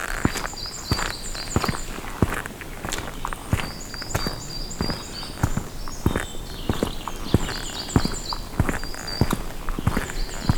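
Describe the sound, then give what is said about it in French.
Footsteps of someone walking outdoors in nature: many crisp, crunching steps in a fairly even rhythm, loud and continuous throughout with no voices. “Là, vous marchez. Et vous entendez.”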